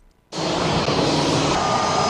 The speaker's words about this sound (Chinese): 这里是朝阳机场，我身后从南京飞来的 PN6554 航班正缓缓滑向停机位